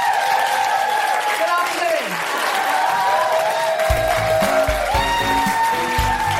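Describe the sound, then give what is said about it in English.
An audience applauds at the close of a live feminist comedy show. The clapping is dense and continuous at a steady level, and music with low, pulsing notes comes in about halfway and plays under the applause. “A huge round of applause for my incredible co-pilot, Kemah Bob!”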